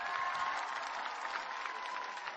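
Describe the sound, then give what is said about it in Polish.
Crowd applause for a bishop at a church gathering after a rosary prayer and before his concert: a fairly faint, continuous wash of many hands clapping, even and unbroken throughout. “Brawa dla księdza biskupa!”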